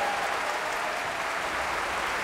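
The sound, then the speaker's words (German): Cheering and applause for pianist Rudolf Buchbinder after Beethoven's Third Piano Concerto with the Bavarian Radio Symphony Orchestra under Zubin Mehta in Munich: a dense, steady, even wash of clapping, fairly soft, with no breaks. “Jubel und großer Applaus für den Pianisten Rudolf Buchbinder.”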